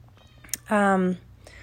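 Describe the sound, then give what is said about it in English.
A pet cat lets out a single drawn-out meow, clear and tonal, lasting about half a second. It stands out loudly against an otherwise quiet background, with a small click just before it. “Sorry if you can hear that. That's my cat, Soki. I don't know why she's meowing.”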